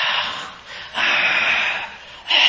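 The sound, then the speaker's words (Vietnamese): A voice imitates the labored, gasping breath of a dying person: harsh, breathy rasping drawn out in a few long pulls, loud and alone, with brief pauses between the strained breaths. “Vì người ta thở không được, người ta kéo hơi thở cá”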